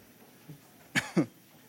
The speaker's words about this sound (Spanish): Si es que toso más de lo que hablo, me disculpan por favor.